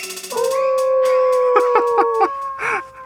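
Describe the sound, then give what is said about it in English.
Stock werewolf howl sound effect: a sustained, tonal, wavering howl that holds its pitch over a few seconds, broken near the end by several short yipping pulses. “Cue the stock werewolf noise.”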